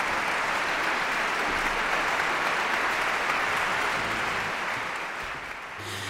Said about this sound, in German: Applaus. Der junge Dirigent lässt einzelne Musikerinnen und Musiker des Orchesters auch aufstehen